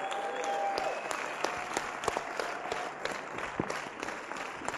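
Warm applause from a church audience welcoming three generations of missionaries: a dense, steady wash of clapping that holds throughout, with a few sharper claps standing out.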